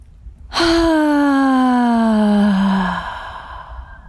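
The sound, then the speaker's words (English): A single long, deep exhale during a guided breathing exercise, heard as a loud voiced sigh that starts abruptly and slowly falls in pitch before trailing off into quiet. “We're going to take a couple more deep breaths. One, two, three. Take a deep breath.”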